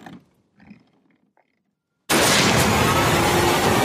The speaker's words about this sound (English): Oh, Jesus. You shot the maid.